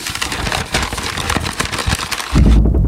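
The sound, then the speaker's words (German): Dry, dense crackling rustle mimicking a leaf beetle scrabbling through leaves, a continuous scratchy texture of many tiny clicks that ends in a heavier, lower rumble. “aber so hört sich ein Käfer im Laub an. Laubkäfer.”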